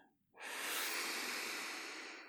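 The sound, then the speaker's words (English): A single long, deep breath drawn in during a group breathing exercise: a steady, airy rush that swells quickly and holds for about two seconds, then eases slightly. No talk over it. “Let's everybody take a deep breath. Breathe out. Let's do that again. Breathe in.”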